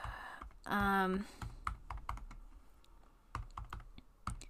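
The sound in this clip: Typing on a computer keyboard during an online search: many quick, light keystroke clicks in an uneven rhythm, fairly faint and mostly alone.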